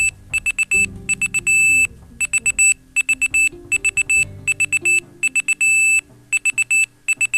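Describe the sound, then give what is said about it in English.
A timer beeper goes off in rapid, high-pitched bursts of short beeps that repeat insistently while a man talks underneath. “hold on, I'm gonna shut this damn beeper off”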